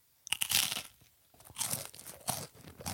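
Quiet crunching of a brown rice cake spread with Marmite, a few dry, crisp bites and chews in separate bursts with short pauses between, no talking.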